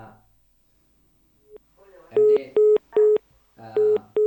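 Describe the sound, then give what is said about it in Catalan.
Electronic telephone line tones as a call comes in: after faint speech and a brief blip, several loud, clipped beeps sound in a quick, uneven sequence. “Sembla que tenim una trucada.”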